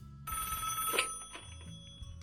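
A telephone rings for a listener's incoming call to a radio show, giving one sustained electronic ring of about a second that then fades away.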